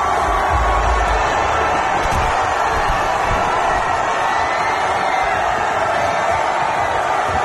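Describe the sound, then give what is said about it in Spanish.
Arsenal football fans cheer at a Premier League title celebration in London, a dense, continuous crowd roar of shouts and whoops that stays loud and steady with no pauses. “Este es el sonido de la celebración del Arsenal hoy en Londres.”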